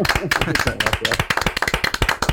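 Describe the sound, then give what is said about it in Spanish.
Applause greeting a guest at the start of an interview: sharp, separate hand claps in a quick, uneven rhythm, fairly loud, with a voice talking over the first half. “te ibas a esta primera ovación, naturalmente. Este primer aplauso.”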